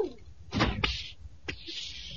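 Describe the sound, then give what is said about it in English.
A door being opened during a tense scene with a flamethrower and gas masks: a few brief, noisy bursts, one ending in a sharp knock, over a steady background hiss. “Stand back while I open the door. Ready? Yes. Here goes then.”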